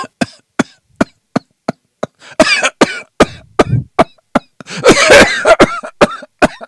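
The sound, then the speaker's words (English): A voice imitates the persistent coughing of an asthma patient: many sharp, dry coughs in a quick, repeating rhythm, loud and insistent, with a few longer, rougher bursts mixed in. “The coughing is a lot. They cough a lot. So typically, I always make this noise when I do any recordings, that when you hear somebody go,”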